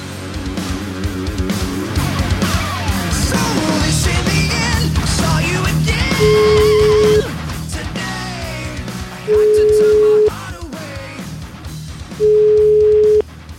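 Ringback tones on an outgoing telephone call: three steady, mid-pitched beeps, each about a second long, spaced a couple of seconds apart, coming after a stretch of mixed background sound.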